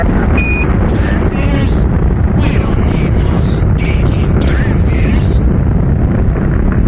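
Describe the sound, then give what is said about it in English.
A rocket lifts off in 2005 with a loud, continuous rumbling roar that fills the whole stretch without a break, and a brief high electronic tone sounds near the start. “Ignition sequence start. 5, 4, 3, 2, 1, 0. Launch commit. Liftoff. We have liftoff. The tower is clear.”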